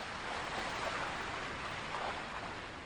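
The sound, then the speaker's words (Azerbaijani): Loud waves of the Araz river roll in a steady, dense rushing roar that holds even throughout, with no distinct breaks and no voices. “Arazın gür dalğası.”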